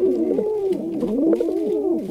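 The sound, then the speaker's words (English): Pigeons cooing in a steady, unbroken stream of low, warbling coos with arching pitch, repeating about every half second at moderate loudness. “Pigeons have an unmistakable strut when they're walking around.”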